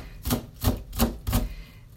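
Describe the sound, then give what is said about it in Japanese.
A knife finely mincing an onion on a board: four crisp, evenly spaced chopping thuds in quick succession, then a short quiet pause. “ラジオトークは12分って決まってるんですね12分の間に玉ねぎが1個切れるだろうかっていう感じです”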